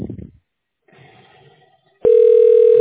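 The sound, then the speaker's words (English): A telephone line tone sounds while a call is placed to a licensed agent. A steady electronic tone starts abruptly near the end and holds loud and even, after a brief muffled low sound earlier. “Now I'm dialing the licensed agent.”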